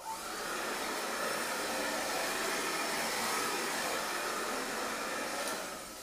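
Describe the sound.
A hair dryer blows on a customer in a barbershop, a loud, steady rushing hiss that holds evenly for about six seconds with no talk over it, easing slightly at the end.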